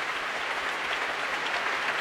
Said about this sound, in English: And applause now for Andrew Haviron leading the John Wilson Orchestra tonight.